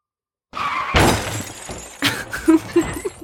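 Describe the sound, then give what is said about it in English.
A car crash sound effect used as a transition: an abrupt, loud burst of crunching and shattering glass, a second heavy crash, then a few clattering impacts as debris settles. “That's the sound of a car wrecking”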